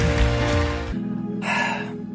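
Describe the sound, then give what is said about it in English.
Heavy breathing from a preacher catching his breath after preaching: a burst of broad, rushing noise, then a quieter stretch with a short breath in the middle. No talking. “Just catching my breath after preaching.”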